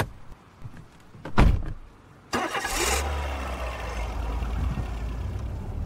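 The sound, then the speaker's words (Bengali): A car door thuds shut, then the car's engine starts with a sharp burst and settles into a steady low rumble that continues to the end. “Blackpool ছেড়ে গাড়ি এবার হাইওয়ের দিকে এগোচ্ছে”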